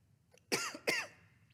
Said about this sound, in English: I went down the wrong tube. Excuse me.